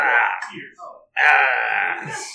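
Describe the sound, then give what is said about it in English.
A voice imitates snoring with drawn-out, rasping, moan-like tones: a long groan, a short grunt and pause, then a second long, loud rasp. “I'm snoring. I promise, I'm just snoring.”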